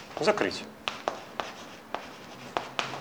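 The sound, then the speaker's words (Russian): Writing by hand, heard as about six short, sharp scratching strokes spaced irregularly, with a brief voice at the start. “Я намеренно сейчас пишу неполадка.”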